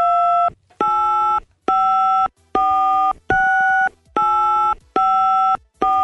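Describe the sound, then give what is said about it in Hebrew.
Telephone tones as a newspaper owner dials a prime minister: eight loud half-second beeps of differing pitch in a steady rhythm, separated by short gaps, with no talk. “הקלטה המקורית, איך בעצם מנהל העיתון מחייג לראש הממשלה”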